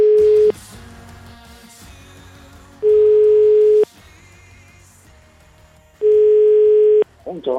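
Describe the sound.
A telephone tone sounds while a call is placed: three long, loud, steady single-pitch beeps, the first short and the others about a second each, separated by longer quiet gaps.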